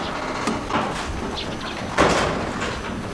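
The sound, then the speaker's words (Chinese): A door being closed, heard as a few soft bumps followed by one firmer thump near the end, all fairly quiet. “门给我关上！”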